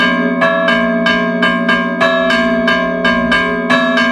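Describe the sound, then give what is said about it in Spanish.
Church bells ring a solemn festive peal on the eve of Saint George's feast. The strikes are loud and rapid and come at a steady rhythm. Their bright metallic tones overlap into a continuous ringing wash. “Así suena el repique solemne en la víspera de San Jorge.”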